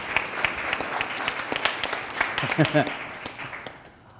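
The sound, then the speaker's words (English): Audience applause at an evening gathering: a dense, steady clatter of many hands clapping, with a voice speaking briefly over it before it thins out at the end. “How about a nice hand? There we go.”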